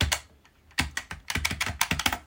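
Typing on a computer keyboard into a blank text editor: a couple of crisp key clicks, a short pause, then a quick, uneven run of many sharp taps, moderately loud with no voices.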